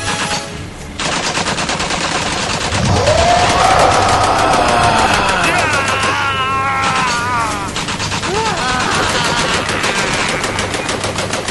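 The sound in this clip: Machine gun fire sound effect: loud, dense, rapid bursts of automatic gunfire that continue without a break for the whole clip, with a harsh, crackling texture.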